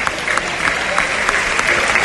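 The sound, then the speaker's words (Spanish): A bullfight crowd applauding after the kill, a thick, continuous roar of many hands clapping, loud and steady, with faint flickers of individual claps within the mass. “suenan los aplausos”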